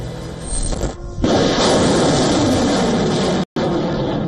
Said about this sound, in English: The weapon in point is Pinaka, built to deliver rapid strikes against hostile targets and developed completely in India.